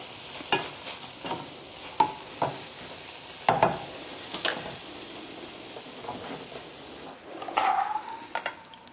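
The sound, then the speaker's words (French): Water boils and sizzles in a frying pan while a spoon stirs a scrambled-tofu-style dish, with many sharp scrapes and taps over a steady hiss. “quand l'eau bout au fond de la poêle, et qu'on a mélangé un petit peu, c'est le signe que c'est prêt.”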